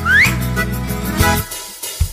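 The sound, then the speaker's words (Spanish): A quick rising whistle stands in for a forbidden word in a spoken word game. The short bright upward slide comes at the very start, followed by a sustained low tonal sound with a few soft knocks. No talk. “En lugar de barba, vamos a hacer un silbido.”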